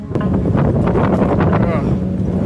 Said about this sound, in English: So windy. This fire, like, it spread from the wind. Oh my God, it's so windy.